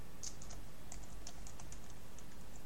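Typing a name on a computer keyboard, a quick, uneven run of many light key clicks, faint and alone against a low background hiss.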